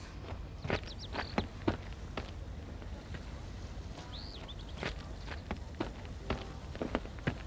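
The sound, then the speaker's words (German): Footsteps walk past a house at a steady, unhurried pace, many soft treads in a quiet, even rhythm, carrying on without a break. “Ich gehe unauffällig vorbei und sehe nach, ob Mr. Brady dort wirklich wohnt.”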